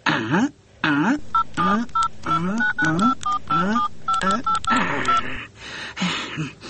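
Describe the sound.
Touch-tone telephone keypad beeps as a number is dialed: many short, evenly pitched tones come in quick succession, mixed in among animated talking voices.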